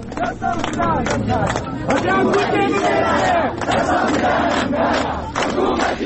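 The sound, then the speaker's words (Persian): A protest crowd at a memorial gathering for Mahsa Amini loudly shouts rhythmic slogans in unison, with many voices rising and falling together throughout. “مردم شعار دادن”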